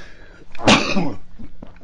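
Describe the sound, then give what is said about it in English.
One loud, harsh cough bursts out, followed by a few faint throaty sounds against a quiet background. “Excuse me. And sometimes you don't get the cough button in time.”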